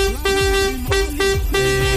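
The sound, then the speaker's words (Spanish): A vuvuzela being blown, giving a loud, steady, buzzing horn tone in a few long blasts separated by brief breaks. “Sí, ya sabemos que tienes una bubucela.”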